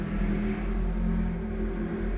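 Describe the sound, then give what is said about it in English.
A car engine revs with a continuous low rumble and a whirring hum that stays fairly even in loudness throughout. No voices are heard. “so I just fucking let that, whoever that was, rev their engine”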